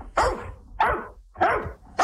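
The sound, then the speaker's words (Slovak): Four sharp barks from a grown dog of a breed whose puppies are born pure white, evenly spaced about half a second apart, each loud and full, with the last one cut off at the end. “Tak to znie to šteniatko, keď vyrastie.”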